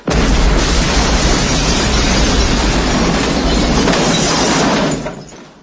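A loud explosion from a bomb planted in a toilet in an action film scene, a sustained roaring blast that holds at full strength for about five seconds, then drops off abruptly.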